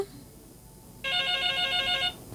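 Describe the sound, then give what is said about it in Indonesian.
A telephone ringback tone while redialing a dropped call: a single steady, bright electronic ring lasting about a second, heard alone after a quiet stretch. “iya terputus lagi. Ini sepertinya Bung Albert ini. Dicoba kembali ya Bung Albert ya.”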